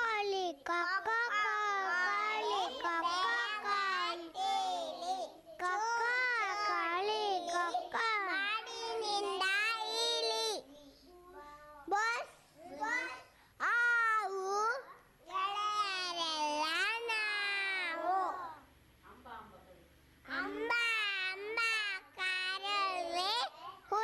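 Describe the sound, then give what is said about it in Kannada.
High-pitched chatter and babbling of small children fooling around before singing their next song, voices running almost continuously with a few brief pauses. “ಈಗ ಪುಟಾಣಿಗಳು ಸ್ವಲ್ಪ ಇಲ್ಲಿ ತರಲೆ ಮಾಡ್ತಾ ಇದ್ದಾರೆ.”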